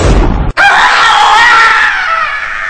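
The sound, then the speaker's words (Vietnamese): A dull stab thud from a pronged spear driven down, then a loud, shrill, piercing scream that holds strong for over two seconds before slowly fading. “Một tiếng phập ngon lành, gọn, và một tiếng thét, trời ơi, liền theo sau đó.”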